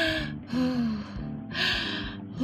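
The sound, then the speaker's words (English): A calming breathing technique, heard as a few slow cycles of audible breaths in and out, each a soft, breathy rush of air, with faint steady tones underneath. “I do breathing techniques. Like I go,”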